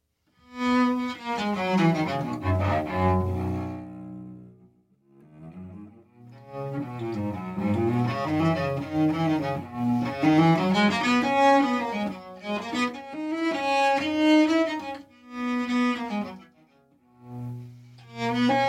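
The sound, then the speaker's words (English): A cello strung with gut strings and played with a baroque bow sounds alone in sustained, singing phrases that separate at a few short pauses, moving between low and middle notes. “It's also strung with old-fashioned gut strings. And it has quite a different sound.”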